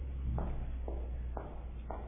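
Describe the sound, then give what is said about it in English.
Footsteps approaching, used as a stage sound effect for someone walking around the room outside: four soft, muffled, evenly spaced steps at a steady walking pace over a low hum. “someone's walking around the room outside. And we often will do something like this where we'll have footsteps approaching for a scene.”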